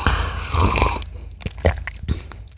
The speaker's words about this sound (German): Also das heißt, das Öl konnte sich herrlich mit dem Kaffee vermischen. Ich sehe es jetzt noch nicht so ganz. Ich probiere es mal ganz kurz. Angeblich soll dieses Olivenöl super mit Kaffee harmonieren.